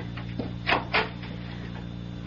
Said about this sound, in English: Get the door, honey, will you?